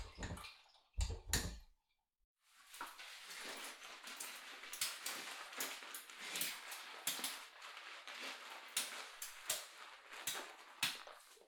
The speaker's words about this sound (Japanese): 軽くお湯で流してからボディーソープで洗っていきます。